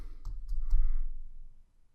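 Three crisp clicks of keys being typed on a computer keyboard, evenly spaced, followed by a soft low murmur that fades to near silence.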